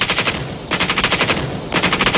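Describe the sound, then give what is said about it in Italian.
Machine gun fire at a hospital: loud, rapid bursts of shots, three bursts in quick succession separated by very short gaps, the last cut off. “Fuoco a volontà.”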